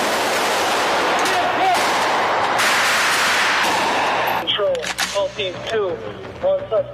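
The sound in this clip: Gunfire as police officers in Las Vegas shoot a gunman: a few sharp, cracking shots break through dense, noisy commotion, with more closely spaced cracks toward the end and voices in the mix.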